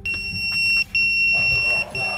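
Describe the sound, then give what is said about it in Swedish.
A fire station alarm goes off with long, steady, high electronic tones, each about a second long, broken by brief gaps, at moderate loudness over a low background rumble. “Halvvägs in i lunchen går larmet.”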